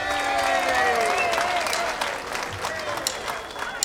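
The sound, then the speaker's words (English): Audience applause for a musician about to perform a waltz at an evening show: dense, steady clapping with a tonal, voice-like line over the first half, easing slightly in loudness later. “Hey, let's put your hands together and welcome our next original member to perform here tonight.”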